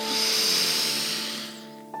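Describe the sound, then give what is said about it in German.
A long, hissy inhalation during a guided breathing exercise, held steady for about two seconds and easing off toward the end, over a soft sustained tone. “Nochmal ein”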